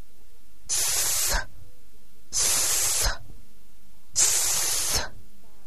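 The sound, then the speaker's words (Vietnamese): A voice imitates a snake's hiss in a speech game for a child practicing the S sound: three sustained, breathy hisses of similar length, separated by short silent pauses. “đó là tiếng rắn kêu. Bằng tay, bạn bắt chước cử động của con rắn nhỏ kêu về hướng của đứa trẻ.”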